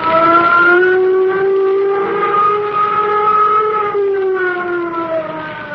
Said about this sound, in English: Sound flight warning signal. Sound flight warning signal.